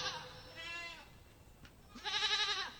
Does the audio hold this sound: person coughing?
no